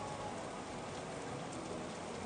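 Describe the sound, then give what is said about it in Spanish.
Heavy rain pours down on a city street as a dense, even hiss with no breaks. The downpour stays steady and moderately quiet throughout, and no voices are heard. “realmente ahora con esta lluvia que está realmente bastante intensa, toda la gente se ha ido a refugiar, a tomarse un café.”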